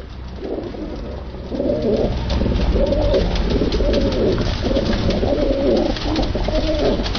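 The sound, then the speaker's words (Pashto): Pigeons cooing with other birds at a bird market in Kabul, a steady overlapping murmur of low coos over constant background noise, growing a little louder after the start. “کابل کې د کافوري شکوڅه هغه ځای دی چې هلته له کوترو سره نور مارغان هم خرڅیږي.”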